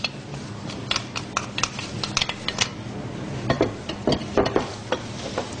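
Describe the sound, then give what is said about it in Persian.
Flour is mixed in a bowl while baking. A utensil scrapes and clinks against the bowl in many irregular strokes, with no voices. “بعد ما آردامون رو مخلوط میکنیم، اصلا احتیاج به الک کردن نداره.”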